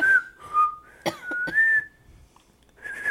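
Whistling in a few short melodic phrases of clear, mid-high tones that slide between notes, with brief quiet gaps between phrases and no voices.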